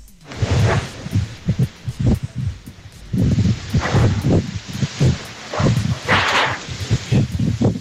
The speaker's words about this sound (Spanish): Parece que era más el viento, alcalde, nada más que un audio ambiental.